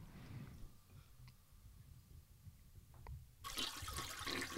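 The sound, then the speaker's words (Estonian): A toilet flushes, a sudden rush of water that begins near the end after a quiet stretch with a few small clicks. The sound is faint overall, and no one speaks. “ah, näe, situn su peale samal ajal, kui ma vett alla lasen.”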